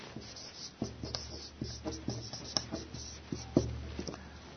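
Writing a name on a board during a French lecture on statelessness. Many short, scratchy strokes and taps come in an uneven rhythm, each sharp at the start and fading quickly.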